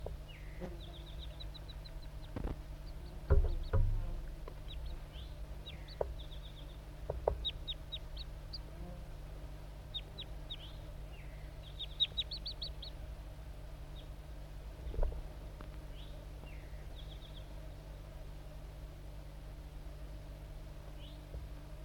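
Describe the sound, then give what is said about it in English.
Song of a male wild crossbill: many thin, high chirps and short trills come in scattered bursts over a steady low hum, with a few louder notes in between. “the pair of wild crossbills is still around. This is the song of the male.”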